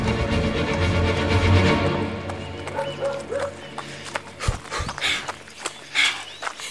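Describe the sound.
Running footsteps thud in a steady rhythm alongside regular, panting breaths. The footfalls grow more distinct and evenly spaced in the second half.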